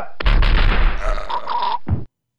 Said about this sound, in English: What was that? Somebody getting shot and choking. I never heard that one. Yeah, it's on the end of that one every time.